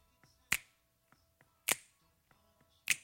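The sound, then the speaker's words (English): Finger snaps in a Motown soul song: three sharp, loud snaps evenly spaced a little over a second apart, with fainter ticks and soft backing sound between them. “Now we're heading towards the chorus, and there's a couple of new elements added here. There are some finger snaps”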